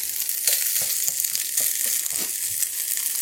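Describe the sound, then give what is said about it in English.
Pieces of pancetta sizzle in a hot pan with a bright, steady hiss of frying fat, dotted with many small crackles and pops. No voices are heard. “So the pancetta is going to go right in. You'll probably be able to hear it when it hits the pan.”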